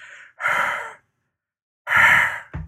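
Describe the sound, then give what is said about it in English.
Two long huffs of breath, then a brief third puff, blown onto a tin locket with gilt paint to polish it. Each exhalation is soft and airy, with a silent gap between the first two. “It just needs a little polish. Yeah, I'll breathe on it.”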